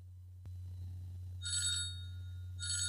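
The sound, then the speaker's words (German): A telephone ringing with an incoming call: a sharp click, then two short bursts of bright electronic trilling separated by a pause, over a low steady hum. “Oh, warte, ich kriege einen Anruf”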